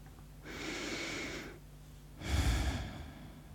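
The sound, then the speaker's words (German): A deep breath, with a long, soft inhale followed by a fuller, heavier exhale. Both are breathy and unvoiced, heard alone with no talk. “schließ einmal ganz kurz die Augen und atme tief durch.”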